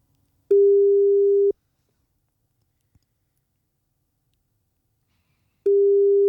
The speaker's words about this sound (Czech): Jestli navážím spojení a jestli to zvedne, tak je to tady.